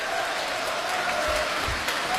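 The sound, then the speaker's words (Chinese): An audience applauds during a crosstalk comedy routine, a short burst of dense, steady clapping that fills the whole clip at an even level. “在这边鼓掌， 这儿应该热烈鼓掌啊！”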